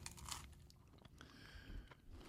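Soft crunching and chewing as someone bites into a cheeseburger, a few muffled crunches followed by steady quiet mastication, faint throughout.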